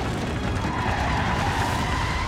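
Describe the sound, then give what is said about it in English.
Tires skid as a car fishtails after its left front tire blows out. A loud, continuous, rough screeching roar holds steady for the whole clip. “The car began fishtailing and nearly tipped over.”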